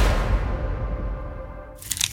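Crunching and squishing of someone eating shrimp, a steady, dense wet crunch throughout that ends in a few sharper, brighter bites.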